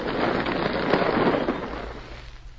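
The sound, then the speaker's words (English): An explosive blast tears through rock at a gold dig. A loud, dense roar with rumbling low end holds steady for about two seconds, then thins and fades, with no voices over it. “I'm going to blast through here, and that'll be... Tom, look out! Hey!”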